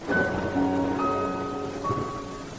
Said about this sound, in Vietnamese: Đêm vẫn trôi xuôi, trời vẫn mưa, vẫn gió.